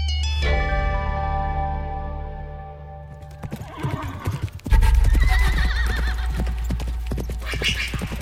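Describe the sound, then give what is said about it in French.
A black horse whinnies in a long, sustained call in the desert, then its hooves pound out a fast galloping beat that grows loud and continues to the end. “Sur son cheval noir, Lady Esther Stanhope galope à travers le désert.”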